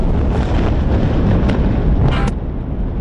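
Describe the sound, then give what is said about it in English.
Israeli airstrikes in northern Gaza City produce a loud, continuous deep roar and rumble. A couple of brief, sharp crackles sound near the end, with no separate blasts standing out. “Sound from Israeli airstrikes in northern Gaza City following the attack this weekend.”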